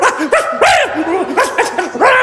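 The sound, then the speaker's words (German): A person imitates the frantic barking of a small, hysterical dog: a rapid string of sharp, high, yapping barks in quick bursts, loud and alone without speech. “wenn du richtig so nah angegriffen wirst von einem Bären, musst du versuchen zu bellen, wie ein kleiner, hysterischer Hund. Das bringt sie durcheinander. Ich habe gebellt für mein Leben.”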